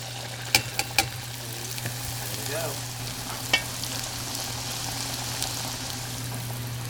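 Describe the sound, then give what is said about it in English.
Falafel balls sizzle as they fry in a pot of hot oil, giving a steady, broad hiss. A few sharp crackles and pops rise above it, with a low hum underneath. “And a slotted spoon for taking things in and out of the oil. And here we go. We're going to roll a few balls and throw them in.”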